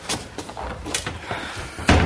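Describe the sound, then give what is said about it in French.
A door being closed: a few soft knocks and rustles lead to one loud, sharp thud near the end. “Attends, je ferme la porte.”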